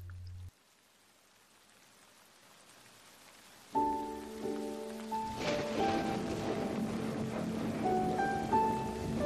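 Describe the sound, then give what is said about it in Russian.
Light drizzling rain gives a soft, steady, faint hiss that continues throughout, and sustained tonal sounds come in after a few seconds. “На утро снова заморосил дождь. Слава богу, не ливень.”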